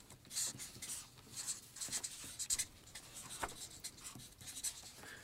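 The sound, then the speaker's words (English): A pen writes words onto cards in quiet, scratchy strokes: many short, irregular bursts of rubbing and scraping, faint and alone, with brief pauses between words. “On the third card, write secret. On the fourth card, write fear.”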